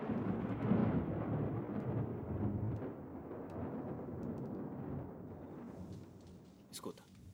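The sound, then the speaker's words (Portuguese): Thunder from a storm, a deep rolling rumble that is strongest early and gradually eases, with hushed voices speaking over it. “Por que a gente não fica acordado ouvindo a tempestade?”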